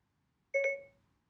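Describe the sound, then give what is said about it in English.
Phone voice assistant activation tone for Siri: a single short chime with a bright layered tone, faint and quickly fading, surrounded by near silence. “did you just hear my phone?”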